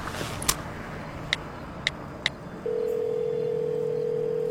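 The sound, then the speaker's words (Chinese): A telephone being dialed during a trip home: four short, sharp key clicks spaced unevenly, then a steady, continuous mid-pitched tone that holds to the end, all fairly faint over a low background rumble. “回去的路上，仁义给龚应贤打了个电话。”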